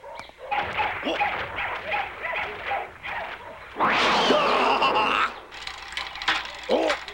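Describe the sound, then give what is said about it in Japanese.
Dogs barking and yipping in a yard full of dogs and cats, an overlapping chorus of barks with a loud, rough burst of noise partway through. “犬や猫とかがたくさんいますな。”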